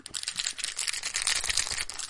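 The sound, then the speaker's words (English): Crinkling and rustling of a 1990 Score hockey card pack as its plastic wrapper is handled, a faint, continuous crackle with no voices. “As you can hear, I have a package of 1990 Score.”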